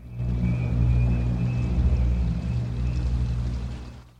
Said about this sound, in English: A city street. Night. Water flows along a gutter.